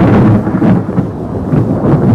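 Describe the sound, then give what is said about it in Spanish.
Deep thunder rumbles in a loud, continuous low roll that swells and eases slightly over about two seconds. “El bronco resonar de un trueno, el rasgar de un rayo”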